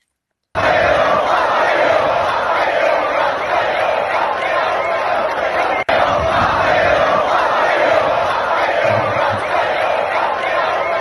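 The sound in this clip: Race crowd at Monza roaring and chanting for driver Matteo Bobbi after the finish, a loud, continuous wall of massed voices that stays steady throughout.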